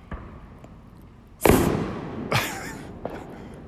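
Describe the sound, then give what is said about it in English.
Fireworks exploding: two loud, sharp bursts, each with a crackling, hissing decay, then a smaller pop, over a low background rumble with a couple of faint earlier thuds. “the fireworks are blowing the words out of my head.”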